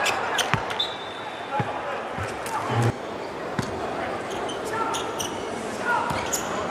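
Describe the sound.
A basketball dribbled on the court during a game, with several dull thuds over a steady wash of crowd noise while a commentator talks.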